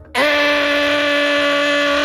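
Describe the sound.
A voice imitates an angle grinder running on an early-morning construction site, a loud, sustained, steady buzzing drone that starts abruptly and holds an even pitch throughout.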